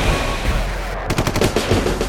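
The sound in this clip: Rapid gunfire: after a stretch of low rumbling noise, many sharp shots burst in fast succession, forming a loud rattling fusillade through the second half.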